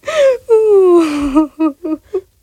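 A person cries: two drawn-out, wavering wails, the second sliding down in pitch, followed by three short sobbing gasps that trail off.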